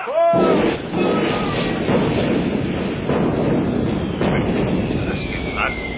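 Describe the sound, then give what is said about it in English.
A ship's cannon fires a cannonball with a sudden loud boom right after a shouted command. A long, dense rumble follows, with voices over it. “I'll draw me own mustache across your face with a cannonball! Fire!”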